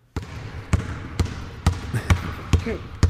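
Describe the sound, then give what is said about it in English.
Basketball dribble sound effect: about seven hollow, punchy bounces at a steady, even pace, each a sharp thump with a short ringing tail. “Let me give a little dribble action for that.”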